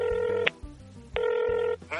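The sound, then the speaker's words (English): A telephone ringback tone sounds as a call is placed: two long, buzzy ring bursts separated by a pause, with a third burst beginning at the very end. “it's ringing.”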